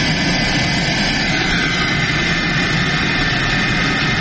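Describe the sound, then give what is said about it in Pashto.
Private passenger plane arriving in Uruzgan province, Afghanistan: a loud, steady aircraft engine roar with broad rushing noise that holds level throughout, no voices. “دا د کامیر په نوم یوه خصوصي طیاره ده چې تر دریو کلونو وروسته نن شنبه اورزګان ولایت ته راغلې”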